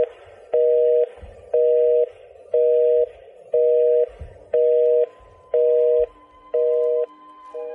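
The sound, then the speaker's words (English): Telephone busy signal: loud, evenly spaced on-off beeps of a low tone, each about half a second long with equal silent gaps, repeating steadily throughout. “you were waiting for an important call that couldn't get through because someone else was using it. There was no call waiting, and of course, there was no voicemail. It makes you think, how many times do you ever call someone and hear this tone?”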